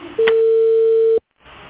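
A single steady, mid-pitched telephone ringing tone sounds for about a second as a call rings before transferring to voicemail. It cuts off abruptly into brief silence, followed by faint line noise.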